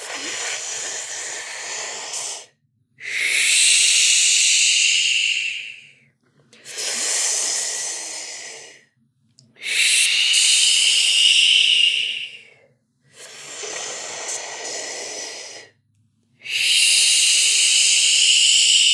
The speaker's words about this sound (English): We'll do another one. Inhaling through the mouth, always begin.